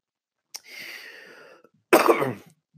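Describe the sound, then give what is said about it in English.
Coughing from a person who is still ill: two coughs, the first softer with a drawn-out raspy tail, the second louder and harsher, then quiet. “I'm coughing like a motherfucker still.”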